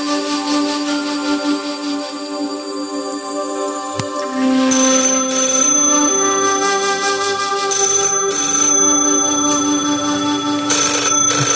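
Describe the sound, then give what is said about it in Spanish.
A telephone ringtone sounds while an outgoing call is placed. An electronic, tonal ringing pattern plays loudly and continuously for about eleven seconds, with repeating bright tones and no voices. “vamos a ver si le marcamos a Dios y Dios nos contesta”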